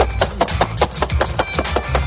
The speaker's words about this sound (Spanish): O sea, coges los ajos y los bates en un bote de cristal. Cerrado.